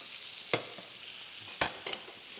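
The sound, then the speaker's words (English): Steaks sizzle steadily in a pan as they are basted with melted butter, fried thyme and garlic, a constant frying hiss punctuated by a few sharp spoon scrapes and clinks against the tilted pan. “Little knobs of butter. And this is where the steak starts to take on a completely different flavour. Tilt the pan, and then just baste the steaks. that fried thyme, that garlic.”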